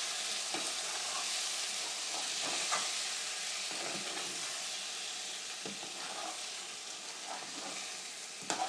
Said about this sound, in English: All the mince and vegetables are covered with the sauce.